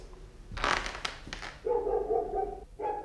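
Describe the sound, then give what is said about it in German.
Dog barking inside a house: a few sharp, loud barks in quick succession, followed by steadier tonal sounds, with no talking. “Mama, der Mino bellt schon wieder. Nee, lass ihn bellen.”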